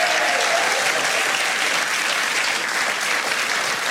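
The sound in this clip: A studio audience applauds in a dense, steady wash of clapping that holds at an even, fairly loud level throughout.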